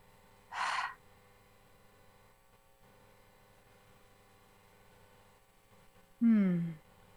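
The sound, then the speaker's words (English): A deep breath during a guided relaxation exercise. A short breathy rush comes first, then a long quiet stretch, then a loud open-mouthed exhale with a voiced sigh that falls in pitch. “And now we're going to take another big breath in through the nose, inflating the belly and the lower back, and then the chest and the upper back. Open the mouth to exhale.”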